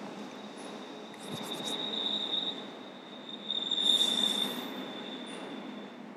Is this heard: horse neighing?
no